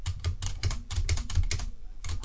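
Old six-key braille typewriter with a central space bar being typed on: many rapid, fairly even clacking keystrokes with deep thuds of the mechanism, heard alone with no talking.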